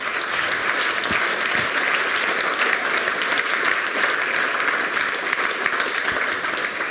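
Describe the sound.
An audience applauds to thank a speaker after a talk, a steady, even wash of many hands clapping that carries on without a break.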